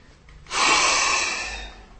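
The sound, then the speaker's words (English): A long, steady exhalation into a breath test device during smoking checks at a tobacco dependence clinic: a breathy hiss that begins after a short quiet lead-in, holds level, then slowly tapers off. “First of all, then breathe out.”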